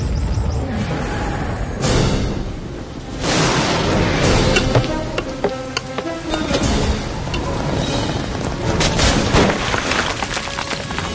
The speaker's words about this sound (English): and thunder and hail and fire darted to the ground.